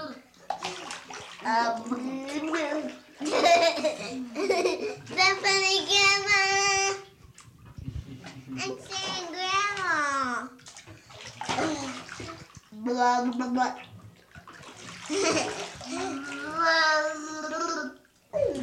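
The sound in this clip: A child blows bubbles in bath water, making gurgling, bubbly bursts and splashes between stretches of the child's voice.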